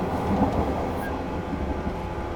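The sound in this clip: Steady rumble of a crowded commuter train in motion, a continuous low, even noise that holds at the same loudness throughout, with no voices.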